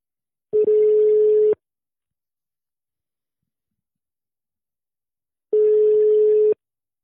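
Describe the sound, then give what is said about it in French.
A phone call rings on the line after a number is dialled: two identical steady electronic tones, each lasting about a second, separated by several seconds of silence. “on te laisse euh, composer le numéro et euh, donc on appelle Eunice”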